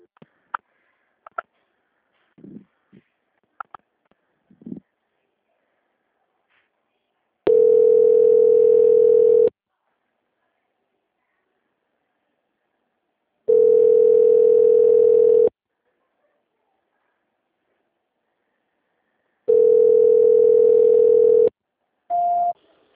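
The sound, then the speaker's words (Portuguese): Telephone line tone while a call is transferred: three long, steady, mid-pitched tones about six seconds apart, then a short higher tone, with a few faint short noises before them. “Só um minutinho que eu já vou transferir. Transferência.”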